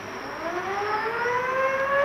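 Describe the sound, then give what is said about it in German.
A siren sounds from the Russian icebreaker Krassin, a loud, continuous wail whose harmonic tones rise steadily in pitch over two seconds, with no voices over it. “Sirene!”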